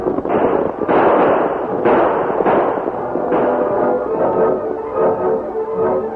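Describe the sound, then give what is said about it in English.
Outlaws on horseback fire gunshots over the heads of a deputy and a masked man riding a buckboard. Several sharp reports land about a second apart over a continuous rumble. “As the outlaws rode out in front of the buckboard, firing shots over the heads of the deputy and the masked man, the Lone Ranger”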